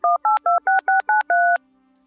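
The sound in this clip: Telephone keypad tones while placing a call: seven crisp, loud dual-tone beeps in a quick, even sequence, the last held slightly longer, followed by a faint low hum.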